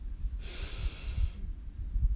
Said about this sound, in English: Take a deep breath in